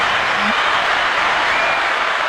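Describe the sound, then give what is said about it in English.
Dense, steady applause from an audience welcoming a guest fills the whole clip at an even level, with no breaks and no voices on top. “So let's give Mark some claps here.”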